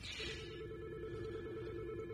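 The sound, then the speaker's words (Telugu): A telephone rings with an incoming call, heard as a faint, continuous ringing tone over a steady background hiss, with no pauses across the short clip. “మాకు call వస్తుందండి.”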